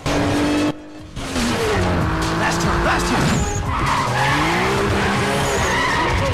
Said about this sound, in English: As he and Suki battle for position, Ryan rolls up behind Slapjack, who shifts gears and swerves into a bend.